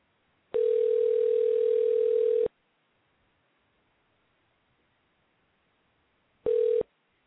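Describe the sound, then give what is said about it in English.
A telephone tone sounds after a dropped call on a phone-in line. A steady, single-pitched hum holds for about two seconds and stops. After a long silence, a brief second burst of the same tone follows. “We've dropped the call. The call dropped.”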